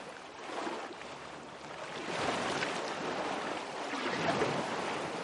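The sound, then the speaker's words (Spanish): Sea water rushes and sloshes as an elderly man pushes his wheelchair into the sea, turning the wheels as he rolls forward through the water. The broad, steady surf noise swells louder after about two seconds, and no one speaks. “George empuja su silla hacia el agua. Introduce la silla en el mar, mueve las ruedas y sigue avanzando.”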